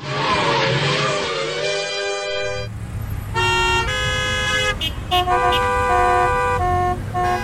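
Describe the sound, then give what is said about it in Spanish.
Car horns honking in protest against a student strike, many loud overlapping blasts at different pitches sounding together and in quick succession. “¡Toda la gente está pitando en contra de la huelga!”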